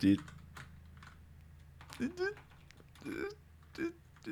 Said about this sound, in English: I'm typing in what you said first.